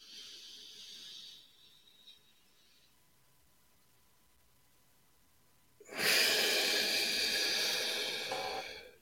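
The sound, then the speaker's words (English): A deep breath is drawn in through the nose as a strong, airy hiss lasting about three seconds, following a quieter breath and a stretch of near silence. “And I ask you to do a deep breath through the nose again, again, getting more sensitized, more centered.”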